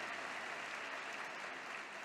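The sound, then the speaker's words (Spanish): A church audience applauding: a faint, steady roar of many hands clapping, even and unbroken from start to finish, with no voices over it. “Y a ese Dios le aplaudimos con alegría de corazón.”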